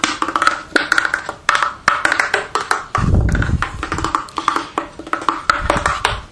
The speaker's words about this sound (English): You can hear this wonderful, wonderful old-fashioned, old-style cupboard sounding.